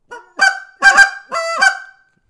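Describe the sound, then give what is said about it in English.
A game call plays a short sequence of a cluck, a double cluck, a drawn-out moan and a final cluck. The notes are loud, shrill and nasal, sounding alone with clear pauses between them. “double cluck, moan, cluck, and just see if I can do it just from a piece of paper. So cluck, double cluck, moan, cluck.”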